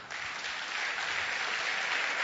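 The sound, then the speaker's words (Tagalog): An audience clapping their hands during a church sermon: faint, steady applause, a soft continuous patter that swells slightly toward the end. “can you just clap your hands?”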